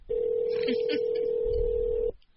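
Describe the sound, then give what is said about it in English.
A single steady ringback tone on a phone line while calling a Sprint mobile number, held evenly at mid pitch for about two seconds before cutting off abruptly, with faint line noise beneath. “A lot of rings. You have reached the Sprint voicemail box of 3-2.”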